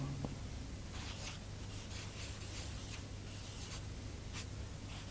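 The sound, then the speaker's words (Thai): A monk writes on a board, producing many short, scratchy strokes in irregular bursts over a low, constant hum. “หลวงปู่เขียนบนกระดาน”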